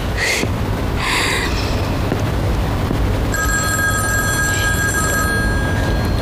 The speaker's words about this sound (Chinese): 我去接一下电话。